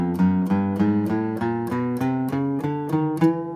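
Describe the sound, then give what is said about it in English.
A guitar plays a chromatic scale, fretting every single fret, one note at a time. About ten clean, evenly spaced notes ring in a steady, moderately loud run with no voices. “chromatics, essentially you can play a chromatic scale by just fretting every single fret, right? So it would sound like this.”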